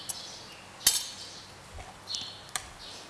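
An avocado and roasted sesame salad is gently tossed, with a few soft, faint clinks and light scrapes of utensils scattered over a quiet background.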